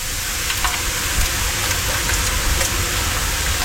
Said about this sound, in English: So that's bacon cooking, and that sends you to sleep, apparently.